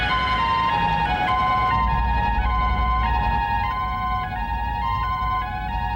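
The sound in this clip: An ambulance siren wails in a steady two-tone pattern, switching back and forth between pitches at a regular rhythm. It stays loud and continuous throughout, with no voices.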